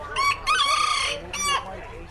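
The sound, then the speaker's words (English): Bantam chickens, cocks and hens, crowing and clucking at a chicken beauty and talent pageant: a few strained, harmonic crow-like calls follow one another closely, the middle one longest, fairly loud and with no talk over them. “Pint-sized cocks and hens face off in a matchup that measures beauty and talent.”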